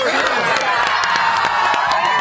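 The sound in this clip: A crowd cheers and shouts loudly and continuously at a holiday gathering greeting a returning guest, a dense wall of voices with scattered whoops and claps throughout.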